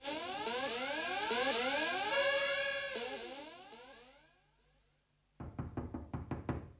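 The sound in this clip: Knocking on a door: a quick burst of several sharp raps that comes right after sweeping musical tones fade to near silence.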